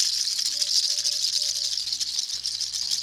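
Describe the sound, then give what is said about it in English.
Rattling of a snake's tail, used as an effect in a told fable, a continuous dry, hissing buzz sustained throughout over soft, low musical notes. “snakes, when they see anyone coming, they will always hiss or rattle their tail.”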